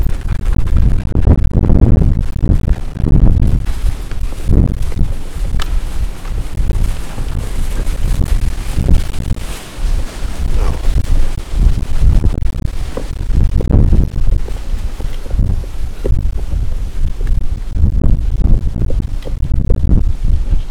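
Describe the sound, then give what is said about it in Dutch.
Strong wind blowing outdoors near a tower, roaring loudly and continuously into the microphone with deep rumbling gusts that swell and ease, with no talk over it. “dat is veel wind, zoals je hoort.”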